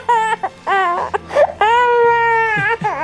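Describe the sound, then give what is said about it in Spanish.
An infant cries loudly in several high, wailing bursts with whimpering catches and brief breaths between them. “Me desesperan los bebés llorando. A mí también. Como que bebés llorando, sáquenlo de acá.”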